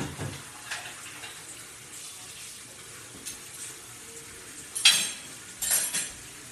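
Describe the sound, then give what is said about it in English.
Washing up dishes at a running tap: a steady hiss of flowing water, with a couple of bright clinks of crockery near the end. “Hey, not your place to do the bloody washing up, you. You what? Your place to do the washing up.”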